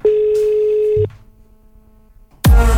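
Telephone tones play while a call is dialed out: a loud, steady tone holds for about a second, a fainter, lower tone follows, and a sudden loud burst cuts in at the end.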